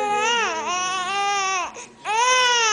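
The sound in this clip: A newborn baby girl cries in loud, high-pitched wails with strong harmonics, in two long sustained bursts separated by a short breath-like pause.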